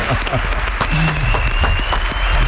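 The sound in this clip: An audience cheers and applauds, with dense, steady clapping that runs throughout at an even level and a lively crowd murmur.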